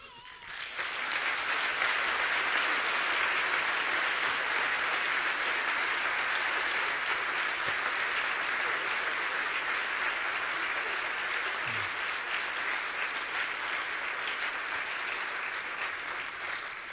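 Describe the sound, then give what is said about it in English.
A church audience gives loud, steady applause that holds at an even level for the whole stretch, with a dense wash of clapping and no talk on top. “Just show it with your strong and healthy applause.”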